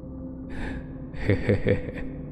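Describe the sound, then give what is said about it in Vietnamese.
A man yawns long and deeply while stretching his arms overhead. The yawn is a drawn-out, breathy exhale with a few voiced, wavering swells in the middle, fairly quiet and heard alone. “Hắn vươn hai tay lên trời, ngáp dài một cái.”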